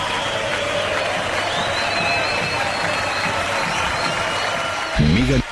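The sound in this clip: Dense, steady applause and crowd noise stay loud and even throughout, with voices mixed in and a brief louder voiced burst at the very end.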